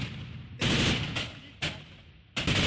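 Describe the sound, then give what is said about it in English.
Gunfire exchanged between Kurdish Asayish militia and Syrian government forces in a city: a few loud, sharp bursts of shots separated by short gaps. “Amateur video showed Kurdish militia units known as Asayish exchanging fire with Syrian government forces over control of part of the city.”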